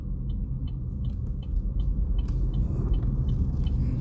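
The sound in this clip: A car driving in traffic, heard from inside, makes a steady low road rumble with faint, evenly spaced clicking throughout. No one talks.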